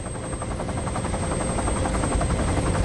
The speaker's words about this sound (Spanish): El helicóptero sobrevuela el monasterio.